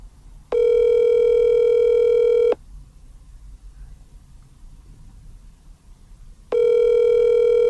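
Telephone dial tone after a call drops: a loud, steady electronic tone sounds for about two seconds, stops for roughly four seconds of faint hiss, then returns and continues to the end.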